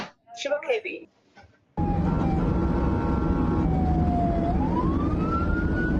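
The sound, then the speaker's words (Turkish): An ambulance siren wails on the D100 highway in Silivri, loud and continuous over steady road noise, dipping in pitch and then sweeping back up. A short burst of voice comes just before it starts. “Siren çaldı, yol istedi ama öndeki aracın sürücüsü aldırış etmedi. Ambulansa yol vermeyen araç Silivri D100 karayolunda böyle görüntülendi.”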